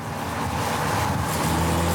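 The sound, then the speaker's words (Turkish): A GTI car engine drones steadily on the car's first test drive. The hum is low and continuous with a constant road rumble and no voices. “GTI ile ilk test sürüşüm.”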